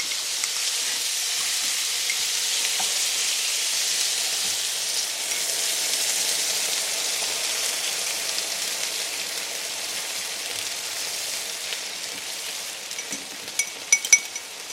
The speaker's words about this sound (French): Voilà, donc j'ai ajouté le bouillon dans la préparation.